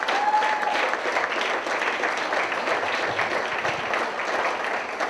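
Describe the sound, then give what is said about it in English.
Audience applause for veterans at a comedy night in Muskegon: steady, dense clapping from many hands, sustained at an even level for the whole stretch with no talk over it. “If there's any in the audience, put your hands together right now. And keep it going for our friends and family over there right now.”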